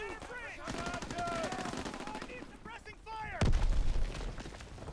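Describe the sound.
Gunfire in a video game where the player's own artillery is shelling: rapid weapon bursts under a voice that talks throughout, then one sudden deep boom that keeps the sound loud to the end.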